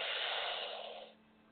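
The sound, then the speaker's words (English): A deep inhale taken during a guided breathing exercise: one long, soft breathy rush that holds steady, then fades away after about a second, leaving a faint low hum. “Breathe out. Inhale again.”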